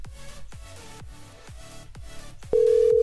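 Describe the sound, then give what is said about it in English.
A phone call is placed from a corporate number to a call-blocking service. A loud, steady single-pitch line tone starts near the end and holds, following a regular low thumping pulse. “Robo Killer doesn't have a proper phone number, so I'm just going to call from my own corporate number there.”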